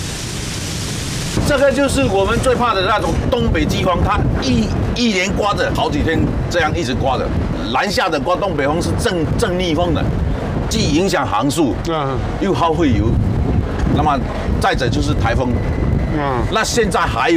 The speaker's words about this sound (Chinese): 这个就是我们最怕的那种东北季风，它一连刮着好几天，这样一直刮着